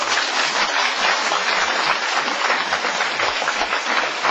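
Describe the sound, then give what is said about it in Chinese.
Applause from an audience during a church service, honoring Jesus: dense, sustained clapping that holds at a steady, fairly loud level throughout, with no voices standing out. “我们给耶稣一个掌声好吗？”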